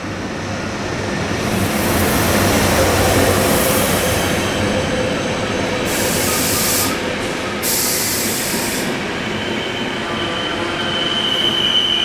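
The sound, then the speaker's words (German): Rumble of an ÖBB Nightjet night train travelling from Koblenz to Munich, a loud, continuous roar with squealing wheels and bursts of high hiss throughout. “Heute geht es mit dem Nightjet, das ist der Nachtreisezug der ÖBB, das ist die Österreichische Bahn, von Koblenz nach München.”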